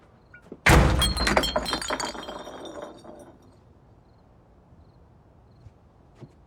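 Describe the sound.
A person walks hard into a closed door: one heavy thunk with a rattling, glassy clinking that rings on and slowly fades over a couple of seconds, then near silence.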